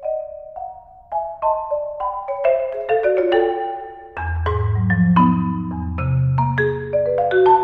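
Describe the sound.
A solo marimba piece played by a percussionist, a steady stream of struck wooden bar notes in a flowing melodic line. Ringing deep low notes join about halfway and sustain beneath the brighter mid-range notes.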